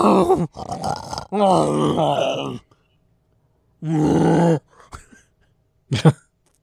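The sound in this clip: Weird grunting and groaning sex noises from a B-movie horror film come in a few strained, throaty vocal bursts separated by silent gaps, ending with a short, sharp exhaled grunt.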